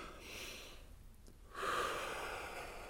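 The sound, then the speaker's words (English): A deep breath drawn in through the nose, soft and airy, then a short pause and a longer, stronger, breathy exhale. No one speaks. “Another big deep breath in through your nose. Exhale.”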